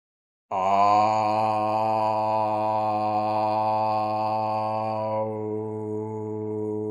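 A long, low voiced tone is held on a single breath for about six seconds during a breathing exercise. It stays steady and loud and alone, with a slight softening and thinning near the end.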